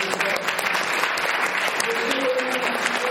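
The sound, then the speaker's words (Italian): Steady applause from an audience at an evening event in a library, a dense even patter of many hands clapping that goes on without pause, with a few voices faintly mixed in. “poi un ultimo grande applauso”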